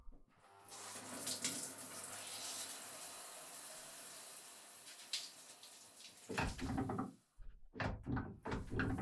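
Warm running water pours while someone's hair is being washed: a steady, loud hiss of flowing water for several seconds, then it stops and a few brief clattering knocks follow.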